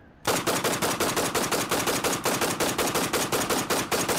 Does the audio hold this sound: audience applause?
no